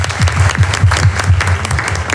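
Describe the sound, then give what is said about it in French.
Applause from a studio audience welcoming a guest, a women's football enthusiast, onto a radio show: dense, steady clapping at a fairly loud level with no voices over it. “nous aurons un passionné de football féminin, nous l'avons dit, Boris, qu'on va accueillir sous un tonnerre d'applaudissements, s'il vous plaît.”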